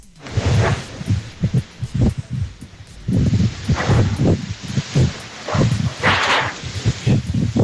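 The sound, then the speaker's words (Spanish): Wind buffets an outdoor ambient recording, striking the microphone in repeated low, rumbling gusts that come in uneven pulses of varying strength. “Parece que era más el viento, alcalde, nada más que un audio claro, ambiental.”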